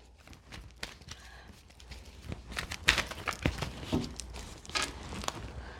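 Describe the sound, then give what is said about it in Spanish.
Playing cards being reshuffled, a rapid patter of papery riffles and soft slaps running through the whole stretch, with denser, louder bursts toward the middle; no voices. “Vamos a volver a barajar estas cartas porque me salieron prácticamente las mismas cartas. Así que vamos a barajarlas”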